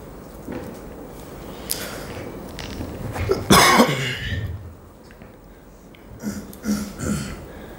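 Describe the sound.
A person coughs once, sharply and loudly, mid-clip, with softer throaty noises before and after.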